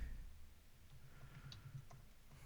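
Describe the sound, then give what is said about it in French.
Typing on a computer keyboard gives faint, scattered key clicks over a low, steady hum, with a few sharper taps standing out in the second half. “Excusez si je tape en même temps.”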